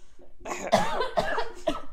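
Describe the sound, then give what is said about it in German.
A person coughing: three harsh, fairly loud coughs at roughly even intervals, with a faint breathy sound just before them and no talk. “warte, ich muss husten.”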